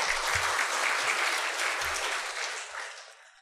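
Audience applause at a church sermon swells into a dense, steady wash of clapping, holds at full strength, then thins and fades away at the end.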